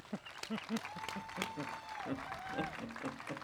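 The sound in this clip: Audience applause welcoming a speaker, a steady patter of clapping that continues throughout with a voice speaking over it.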